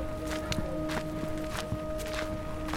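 Footsteps walking: a few soft, irregular steps over a steady humming drone, with no speech.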